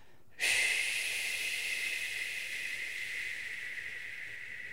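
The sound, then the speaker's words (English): A long, forceful exhale through the mouth, demonstrated as a breathing technique: a steady breathy hiss that begins abruptly and holds at an even, fairly loud level for several seconds, with no talk. “So if you want to be more effective, you know, breathing out, breathe out through your mouth, making like a,”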